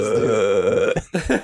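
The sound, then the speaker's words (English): A man belching: one long, low, drawn-out burp with a rough, throaty rattle, then a brief pause and a couple of shorter gurgling bursts, fairly loud with no talk. “that's him just belching.”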